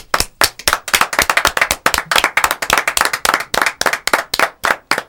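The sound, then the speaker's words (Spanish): Loud, sharp claps from several people come in a fast, uneven stream of many claps offered as a tribute. The clapping stands alone with no voices over it. “Para vos, nuestro aplauso”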